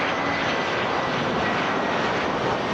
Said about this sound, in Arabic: يعرف مطار بروكسل هذه الأيام ذروة حركة السفر الصيفي. طوابير من المسافرين وطائرات تقلع وتهبط في تتابع لا يتوقف